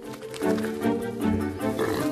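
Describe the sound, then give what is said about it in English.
An unsettled truffle pig on a rope lead, grunting in a few drawn-out, throaty bursts at low pitch, each swelling and fading with short gaps between. “The pig seems unsettled by the theft, and the old man pulls in its rope lead, but it doesn't comply.”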